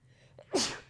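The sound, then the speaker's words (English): A single sneeze from a person in conversation, a faint intake of breath followed by one sharp, loud burst that trails off quickly. “I have to sneeze.”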